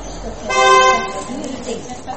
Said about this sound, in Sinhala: ඔය හොන් ගහන්නේ මොකද්ද? එළිය තියෙන වාහනේ.